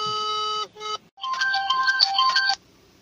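An electronic ringback sounds over the phone during an outgoing call, a melodic tune of bright, layered tones. A short phrase breaks off briefly, then a longer run of shifting notes plays before stopping.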